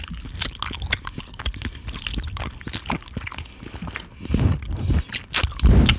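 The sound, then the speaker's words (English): Extra mature Scottish cheddar, aged over a year, is chewed right against the microphone: many wet, squishy bites and crunchy mouth sounds in an uneven rhythm, growing louder toward the end, with no talking. “This is the extra mature Scottish cheddar. It's aged for over a year. Make sure you get real close to the mic when you eat this. You gotta masticate into the mic.”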